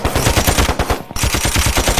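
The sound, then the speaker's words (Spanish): Rapid automatic gunfire from an AR-15 rifle fitted with an extended magazine: a loud, dense string of shots in two bursts, split by a brief pause near the middle. “Un R15 que tiene puesto una extensión. Para tirar 100 balas más contra el estudio de DJ Con.”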